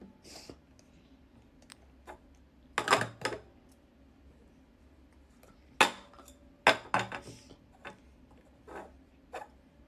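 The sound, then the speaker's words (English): Chop cups from a cups and balls magic trick handled in sporadic clinks and taps, some bunched in quick clusters, fairly quiet and without talk. “Oh, some chop cups? Cool. Cup and balls. Classic.”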